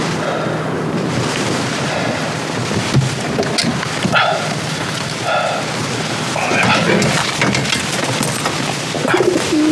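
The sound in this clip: Carrier pigeons cooing in a cage, soft calls that come and go within a steady, dense wash of rustling noise that continues throughout.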